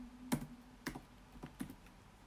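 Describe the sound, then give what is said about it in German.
Keys on a computer keyboard are pressed in a few separate, light taps spaced apart in an uneven rhythm, faint and with nothing else heard. “Hier tippe ich jetzt einfach mal ein.”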